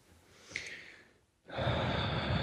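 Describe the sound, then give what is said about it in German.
Heavy puffing breath: a short breathy puff, a brief lull, then a long, loud, noisy exhale that rushes on steadily to the end. “Was schnaufst du denn jetzt so?”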